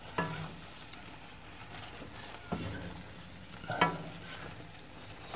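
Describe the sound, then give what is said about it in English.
Spring onions and stir-fry being stirred in a hot pan: a steady sizzle with a few louder scraping strokes, no voices. “And now I'm just going to stir this whole thing up. So that everything is evenly mixed through.”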